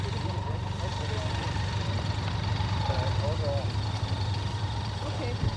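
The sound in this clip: A car engine runs on a side street as the car drives along, giving a steady low drone with a constant hum throughout.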